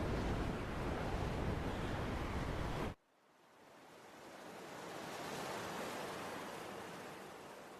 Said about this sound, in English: Everything calms down. The ship stops rocking. You're in calm. You're not being pelted by rain and wind. You're just in ocean now.